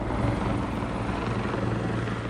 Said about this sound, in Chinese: 警方也出动警用直升机在空中警戒。